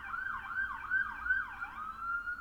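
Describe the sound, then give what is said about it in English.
An emergency vehicle siren passing by, its wail sweeping up and down in a steady repeating cycle, moderately loud and alone with no talk. “You know where that siren is going?”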